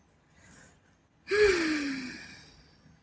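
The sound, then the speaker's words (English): A deep breath in and out, with a soft breath early on and then one loud airy breath carrying a voiced tone that slides down in pitch before fading out. “Deep breath in. Deep breath out.”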